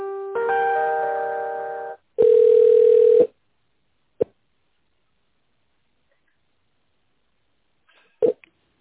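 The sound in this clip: Telephone tones while a call is transferred: a roughly two-second multi-pitched tone, then a shorter steady single beep, followed by two brief clicks separated by silence.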